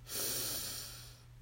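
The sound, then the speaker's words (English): A single deep breath drawn in during a guided breathing exercise: a loud, airy rush that swells quickly, holds, then slowly fades, with no talking. “So we breathe in”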